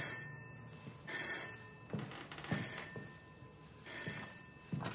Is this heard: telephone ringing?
yes

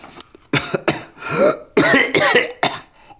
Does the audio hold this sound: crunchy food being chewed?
no

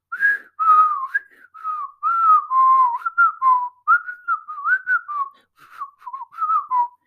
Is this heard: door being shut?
no

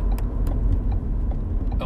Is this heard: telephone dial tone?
no

